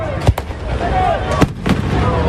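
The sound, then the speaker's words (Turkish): Fireworks burst at a nighttime national celebration in a capital city, where buildings are lit in flag colours. A few sharp, booming pops punch through a steady, continuous background din. “Kutlamaların en dikkat çeken anı ise havai fişek gösterisi oldu.”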